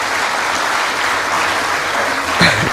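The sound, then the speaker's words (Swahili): Applause for the president at a formal ceremony at the State House: a dense, loud, sustained clapping from a crowd, continuous and even without any break. “Naomba tumpigie makofi mengi”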